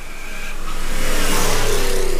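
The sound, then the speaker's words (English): The engine of a 1967 Corvette Stingray sports car revs in a loud, rough roar that swells over the first second and then holds steady and full, with no voices. “It's a 1967 Corvette Stingray.”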